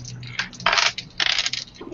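Percentile dice rolled during a tabletop game: a few bright, scattered bursts of hard clicking and clattering, fairly loud and with no voices.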